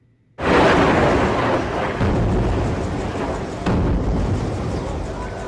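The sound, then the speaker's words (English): A sudden, loud airstrike blast in Khan Yunis in the Gaza Strip, breaking in after a moment of quiet, then a long rolling rumble with a second jolt partway through that slowly fades. “In other news, in the Middle East, multiple airstrikes target the city of Khan Yunis in the Gaza Strip.”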